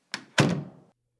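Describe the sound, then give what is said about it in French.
A street door being shut: a light knock, then a heavy wooden thunk with a short rumbling decay, followed by quiet. “Non pas. Je veux fermer sur vous la porte de la rue.”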